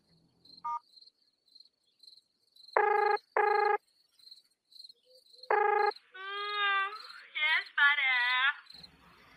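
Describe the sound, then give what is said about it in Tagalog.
A telephone rings on an outgoing call: two short ring bursts close together, a pause, then a third, while crickets chirp steadily throughout. A voice follows at the end. “Tawagan ko nga si Betchay. Sana gising pa siya.”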